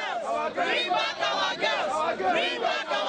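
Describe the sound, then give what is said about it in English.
Protesters outside the Nigerian embassy in Belgium angrily chant a short slogan in unison. The voiced phrase repeats rhythmically, loud and insistent, over the crowd. “You hear the chanting there, bring back our girls. That's the sound of protesters outside the Nigerian embassy in Belgium, angrily urging the government of Nigeria to do more to fight Boko Haram.”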